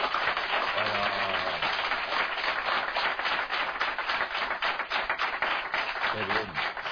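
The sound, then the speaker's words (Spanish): Applause from a studio audience in a radio studio during a Halloween show, a dense, steady patter of many hands clapping throughout, with a voice briefly heard near the start and end. “vamos a hacer un aplauso Halloween para que se os escuche en toda España. A ver, un aplauso Halloween.”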